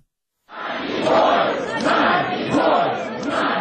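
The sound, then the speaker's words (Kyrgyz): Loud crowd shouting from demonstrators outside the Russian embassy in Kyiv, demanding freedom for Nadiya Savchenko. After half a second of silence, the massed voices rise and hold as a dense, sustained roar with rhythmic swells. “Киевдеги орус элчилигинин жанына чогулгандар Надеждага эркиндик деп кыйкырып турушту.”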